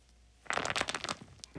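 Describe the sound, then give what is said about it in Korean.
A jelly-like squishy toy is squeezed by hand and crackles. After a quiet start comes one dense burst of many crisp, crunchy crackles, then another short crunch at the very end. “와 이게 뭔가 뭔가 지금 손에 있는 뭐 젤리 비슷한 그 같은 건데 그걸 누르면 저 소리가 과자작하면서 나면서 안에 무슨 오돌뼈가 있는 것 같아.”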